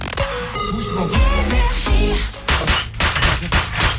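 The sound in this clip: Gunshots in a comedy sketch: several sharp, loud bangs fire in quick succession after a stretch of music.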